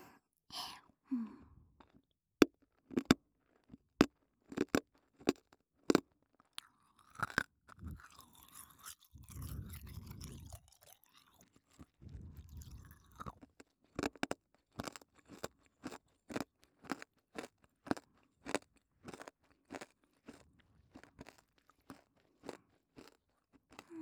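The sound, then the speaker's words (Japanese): Hard candy and ramune tablets being crunched and chewed: many sharp, crisp cracks in an uneven rhythm, with a stretch of softer, muffled chewing in the middle and quiet gaps between bites. “飴とラムネ混ぜれないな。どうしようかな。どうしよう。よいしょ。よいしょ。噛んじゃいます。”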